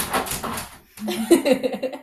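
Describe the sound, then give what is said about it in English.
A dog gives a few short yips and whimpering barks, bunched together after a brief silence, with thin, whiny high tones between the bursts. “that's my dog”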